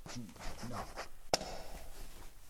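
Writing as a scribe takes down dictation: a continuous soft scratching of pen on paper with one sharp tap partway through, over a faint hiss.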